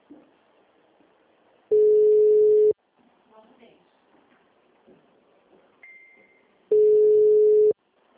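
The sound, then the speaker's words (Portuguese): Ringback tone of an outgoing telephone call: two steady, mid-pitched tones, each lasting about a second, separated by a long silent gap over quiet background noise. “tô ligando pro cliente, tá bom?”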